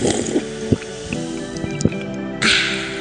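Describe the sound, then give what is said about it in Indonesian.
Effervescent vitamin powder poured into a glass of water with ice and stirred: a few small drips and clinks sound over background music, then a sudden bright fizzing hiss rises near the end. “Tuang serbuk Effervescent SDC 1000 ke dalam segelas air dan es batu. Aduk, siap minum.”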